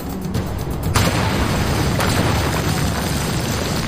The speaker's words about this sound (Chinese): 一声巨响过后，周围一片死寂，美军进入隧道，朝黑暗的角落里开枪。